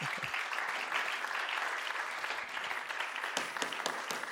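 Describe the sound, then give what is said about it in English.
Applause fills a church service, a dense, steady patter of many hands clapping together without pause, holding at an even level from start to finish. “Who was clapping just then?”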